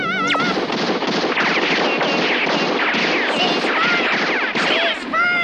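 Sustained rapid gunfire, a dense, continuous barrage at steady high loudness with shrill whistling tones layered over it throughout.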